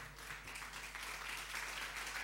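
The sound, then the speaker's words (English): An audience applauds to welcome debaters at a debate event, with faint, continuous clapping that holds steady throughout. “Thank you for putting your hands together.”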